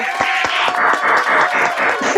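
An audience applauds a guest, giving a brief round of clapping. Many individual claps blend into a steady, moderately loud patter that lasts for the whole stretch.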